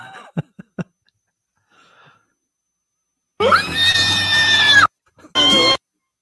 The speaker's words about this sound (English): The best squeal in the biz. I don't think... It sounds like a drill.